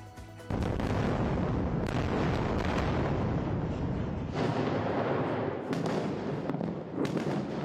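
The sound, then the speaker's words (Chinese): Heavy explosions from Israeli airstrikes on Gaza in October 2023: several deep, booming blasts over a sustained, rumbling roar, with no voices. “从黑夜打到天亮，报复哈马斯，以色列彻夜不停空袭加萨。红牌加萨炮弹如雨，多点爆发。”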